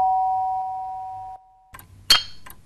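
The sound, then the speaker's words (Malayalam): An electric calling bell, rung by pressing a switch at the head of a bed, sounds one sustained ringing tone that slowly fades over about a second and a half. Brief clattering noises follow after a short pause. “അത് വെച്ചാണ് കട്ടിലിൻ്റെ തലക്കീഴുള്ള സ്വിച്ചിൽ അമർത്തി ഈ calling bell അടിക്കുന്നത്. അത് കേൾക്കുമ്പോൾ ഉണ്ടല്ലോ നെഞ്ചു കിടുന്നു.”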